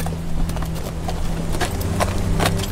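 Horse hooves clip-clop at a steady walking pace as the horse carries bodies on its back toward the graves, the sharp hoof strikes repeating over a low, constant hum.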